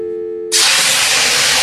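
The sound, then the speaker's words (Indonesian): Hot cooking oil sizzles and spatters, a sudden loud, steady hiss bursting in after a short steady tone and continuing unbroken to the end. “Aduh, aduh, aduh, kecipratan minyak panas nih.”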